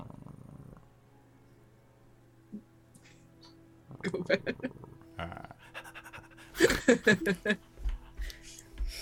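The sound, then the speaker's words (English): Dogs pant in quick, breathy, rhythmic bursts, faint at first and louder in two clusters toward the end, over a low, steady purring rumble. “They continue to pant”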